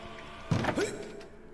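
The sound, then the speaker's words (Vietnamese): A single short click-thunk as a door opens in a library, one sharp impact followed by a brief fading rattle over low, steady background hiss, with no voices. “Có tiếng mở cửa cạch một cái ở đằng sau lưng.”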